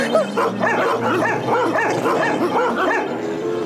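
Dogs bark and yip rapidly and continuously. The sharp, mid-pitched barks overlap one another for the whole stretch.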